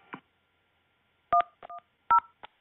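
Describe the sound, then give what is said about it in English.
Telephone keypad DTMF tones dial an extension on a Motel 6 phone system in Columbus, Ohio. A few short, sharp dual-tone beeps sound in irregular succession, separated by silence. “If you know your party's extension, you can dial it any time. To reach the front desk, press 0.”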